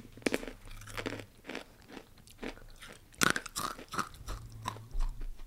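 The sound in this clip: Crisp crunching and chewing of sweet and spicy snacks, with many sharp bites and steady mastication in a loose, uneven rhythm, heard alone without talk.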